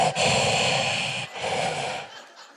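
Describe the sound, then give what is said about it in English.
A human voice imitates the rasping, Darth Vader-like breathing of a sleep apnea machine. It makes two long, hissing breaths with a low raspy undertone, the second slightly shorter and fading out. “He also has a sleep apnea machine, which is great if you like sleeping next to Darth Vader. It's like...”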